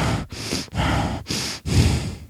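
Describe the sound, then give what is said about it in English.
A person demonstrates deep, heavy breathing: a series of slow, loud breaths, each a breathy rush separated by brief pauses, with no speech in between. “that deep, heavy breathing.”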